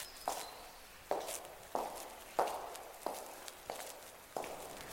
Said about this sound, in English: I'm walking down an empty corridor.